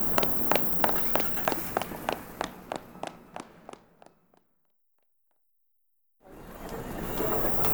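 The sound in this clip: Running footsteps of someone chasing after another person through town: a quick, even run of many sharp steps that stops abruptly, then silence, then a broad, steady rushing noise.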